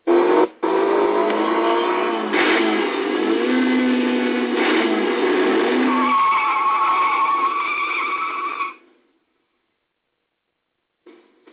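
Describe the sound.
A car drives fast through curves with its tires skidding. A loud, continuous squeal and drone shifts in pitch for about eight seconds, then cuts off abruptly to near silence.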